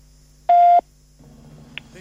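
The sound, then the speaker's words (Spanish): A voicemail beep tone: a single steady, pure mid-pitched electronic beep lasting about a third of a second, loud against quiet line noise, then faint low background sound. “Por favor, deje un mensaje. Después del tono”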